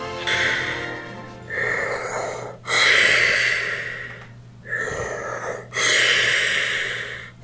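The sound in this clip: Sniffling through a blocked nose: five drawn-out, snorting nasal breaths, each a harsh hissing rush separated by brief gaps, fairly loud and with no speech.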